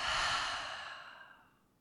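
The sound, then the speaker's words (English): A single long breath, drawn deep and let out through the mouth during a guided breathing exercise, a soft airy rush that starts full and fades steadily away, heard alone. “take a deep, deep, long breath in through the nose. Open the mouth and let it out.”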